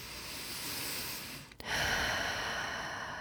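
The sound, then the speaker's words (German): Deep breathing during a guided relaxation exercise: two long, fairly loud rushing breaths, in and out, separated by a short break, with no talk over them. “Und dann atme gerne 2-3 Mal richtig tief ein und tief aus.”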